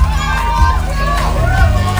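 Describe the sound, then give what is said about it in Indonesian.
Fans cheer and shout noisily for two guests, with a lively babble of many voices, including children, sustained throughout. “Wow, riuh banget ya ini fansnya Dava sama Bima ya.”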